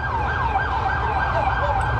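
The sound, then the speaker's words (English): An ambulance siren wails in New York as the vehicle carries a man to hospital, its pitch sweeping up and down in a repeating cycle over a steady low rumble. “Sirens from an ambulance taking a man to the hospital.”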